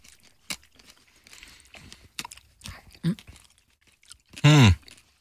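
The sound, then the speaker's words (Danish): Grapes, some seedless and some with seeds, are chewed in a run of soft, wet bites and small crunches, faint and irregular, with a short loud vocal sound near the end. “Så dommen lige nu, efter at have smagt en drue uden sten, og en drue med sten. Jeg synes, de smager det samme.”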